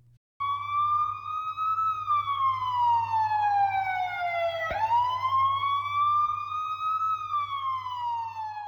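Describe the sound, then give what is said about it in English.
Ontario Provincial Police car siren racing to an emergency, a loud continuous wail that slowly rises and falls in pitch over a steady low engine rumble. “That is the sound of the Ontario Provincial Police racing to a situation where someone is in danger.”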